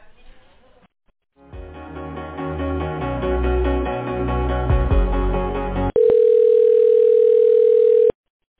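Telephone line sounds during a transfer to a medical center's department: a stretch of layered electronic tones, then a loud, steady, unbroken tone held for about two seconds before cutting off. No one speaks.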